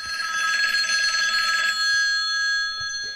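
A telephone rings with a loud, high, trilling bell for about a second and a half, then gives way to a steadier, high ringing tone.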